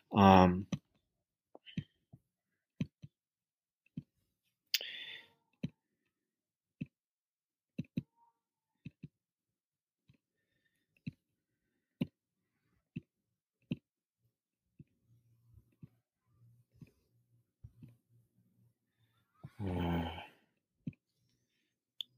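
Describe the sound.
Mouse clicks on a computer as internet tabs are closed: many sharp, dry, isolated clicks at irregular intervals, mostly quiet, with brief talk at the start and again near the end.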